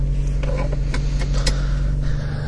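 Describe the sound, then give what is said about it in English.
Steady interior hum of a car while driving, a continuous low engine drone with faint mechanical ticks above it. “I said I was gonna try not to do any podcast in the car, but I'm gonna have to because”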